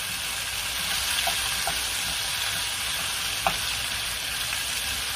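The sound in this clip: Jerk shrimp rasta pasta with garlic and scallion seasoning sizzling as it is stirred in a pan: a steady frying hiss with a few faint scrapes and one sharper click near the end.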